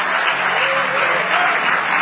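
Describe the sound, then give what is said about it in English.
A church audience claps its hands in praise, a dense, loud and steady wash of applause that runs throughout. “Just give the Lord a hand clap of praise, would you?”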